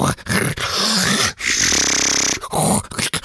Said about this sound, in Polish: jest chrapanie borsuka